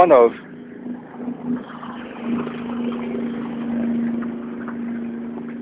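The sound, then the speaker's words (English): A small car engine runs with a steady, low, droning hum. A brief, harsher burst comes at the start, and the loudness wavers slightly throughout. “a lot of noise for a little car.”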